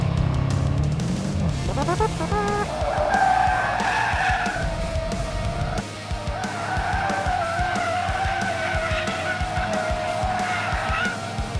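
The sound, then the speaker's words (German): Tires screech as a Continental GT V8 drifts sideways on a race track, arriving in fifth gear. A continuous, loud squeal rides over a steady engine roar throughout. “Wer ballert mit seinem Continental GT V8 auf dem Bilsterberg quer durch die Gegend?”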